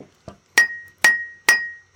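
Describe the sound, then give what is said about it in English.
A wood baseball bat, held still in a lab, gives sharp cracks as it is struck. Four strong, evenly spaced hits each leave a thin ringing tone, after a fainter tap at the start. “So I can't swing in my lab without hitting balls and breaking things, but I can take a bat and hold it. So that's the crack of a wood bat”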